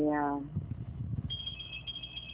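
An intercom ringing with a short, buzzy, harmonic-rich tone at the start, giving way to shuffling noise and later a thin, steady high tone.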